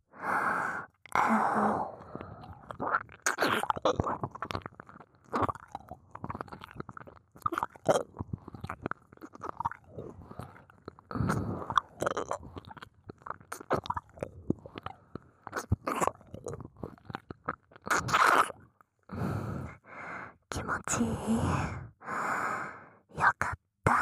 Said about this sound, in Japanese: 耳なめ、どうかな？